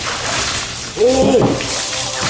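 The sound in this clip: Water sprays hard as something is rinsed during a cleaning job, a continuous, fairly loud hiss, with a brief voice-like tone rising over it midway.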